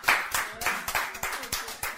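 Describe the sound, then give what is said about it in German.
An audience at a sermon claps in unison, a steady run of evenly spaced, sharp hand claps, about three or four each second, fairly quiet, with no talk over them. “Ihr klatscht nicht für mich, ihr klatscht für euch.”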